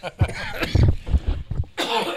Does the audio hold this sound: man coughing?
yes